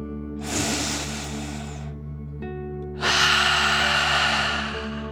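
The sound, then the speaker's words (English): A deep breath in and then out during a relaxation exercise: two long, soft airy breath sounds separated by a short pause, heard over a steady, quiet background tone. “let's take another deep dragon breath together. Ready? Deep breath, in and out.”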